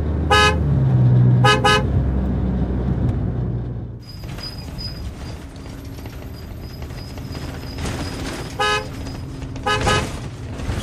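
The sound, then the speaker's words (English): A taxi car honks its horn in a few short blasts. The first two come close together, then two more follow after a long stretch of steady engine and traffic rumble. “Where is taxi? Taxi.”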